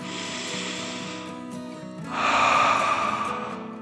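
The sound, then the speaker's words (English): A voice imitates a dragon taking a deep breath in and out: first a breathy, lightly voiced intake, then after a brief pause a louder, fuller, rasping exhale that swells and slowly trails off. “the dragon took a deep dragon breath in and out.”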